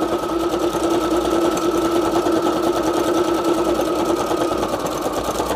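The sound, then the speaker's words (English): A sewing machine stitches a mail pocket with a loud, continuous whirring drone, steady and unbroken for the whole stretch. “Whoop, there's a funny string coming through. Probably should have cleared that. Didn't do it. Sewing anyway.”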